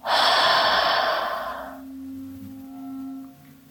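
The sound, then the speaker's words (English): A single deep breath, in through the nose and out through the mouth, loud and airy for about two seconds, then fading away over soft, sustained background tones. “Take a deep inhale through the nose. Exhale through the mouth.”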